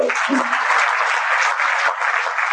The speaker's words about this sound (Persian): یه دست بزنیم